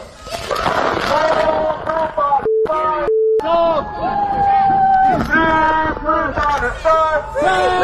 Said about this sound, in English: All right, so what you're hearing here is what was happening yesterday afternoon, late afternoon, outside on Sherbrooke Street between Stanley and Peel. What it started off as a Palestinian protest against the federal government,